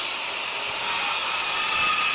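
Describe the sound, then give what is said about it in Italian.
Power drill running during renovation work in a neighbouring home, a steady, harsh, high-pitched whirring buzz that grows louder partway through and then holds without pause. “Poi c'è anche un altro trapano.”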